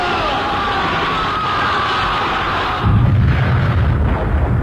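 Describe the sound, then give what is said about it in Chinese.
A burst of gunfire in a staged guerrilla battle scene against bandit troops: a rough, noisy crackling wash that turns into a heavier, booming rumble with more low-end weight about midway through. “随着游击队的一阵枪声，匪军大乱。”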